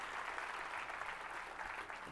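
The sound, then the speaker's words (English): Faint, steady applause from an audience, a soft continuous patter of clapping hands over a couple of seconds. “Well, yeah, you can give her an applause,”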